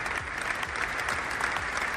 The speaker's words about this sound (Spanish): Así, cientos de agentes del cuerpo, entre aplausos, recibían al cuerpo de David frente al templo